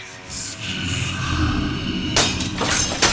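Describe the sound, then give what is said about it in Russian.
Glass mirrors crack and shatter into dust. A sustained crackling, glassy wash builds and then breaks into a few sharp, bright bursts of breaking glass near the end. “Зеркала. Все, что еще остались здесь, включая и стеклянную часть половины, треснули и рассыпались пылью.”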